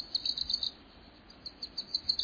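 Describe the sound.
A Wilson's warbler, a tiny yellow songbird, calls with many thin, high chirps in quick irregular bursts. The calls stay faint above a soft background hiss.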